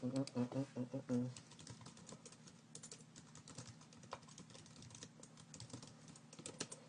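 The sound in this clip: Someone types quickly on a computer keyboard to send a link, a fairly quiet run of light, irregular clicks, with a voice talking at the start.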